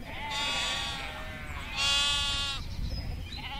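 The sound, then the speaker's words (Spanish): Lambs bleat in two loud, long, wavering cries with a short gap between them. A faint, brief sound follows at the end. “María, la cual se ha agachado a acariciar a unos corderos que han venido a empinar su morrito, balando contra sus rodillas.”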